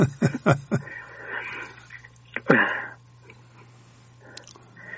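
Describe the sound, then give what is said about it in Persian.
Someone breathes in deeply before reading aloud: a few short, sharp intakes through the nose, then one longer, louder inhalation, followed by near quiet. “من یه نفس عمیق بکشم اگه اجازه بدین. بله بله بله، دو تا بکشین، هیچ عجله نکنید.”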